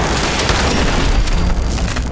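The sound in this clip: Small flying robot enemies pop in a video game shooter with a loud, dense blast of explosive noise and a heavy low rumble that fills the whole stretch without pause.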